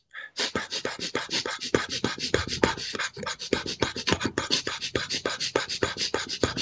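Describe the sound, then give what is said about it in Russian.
Rapid, forceful holotropic breathing done as a breathwork exercise, pumping in and out like a pump: many quick, sharp, loud breaths in a steady driving rhythm, with no talking. “Вы знаете, что такое холотропное дыхание? Это быстрое резкое движение, ну, как вот я вообще показываю.”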